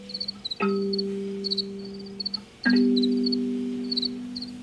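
Crickets singing: short, high, repeated chirps recur throughout, while a steady low tone sounds beneath them and starts again partway through.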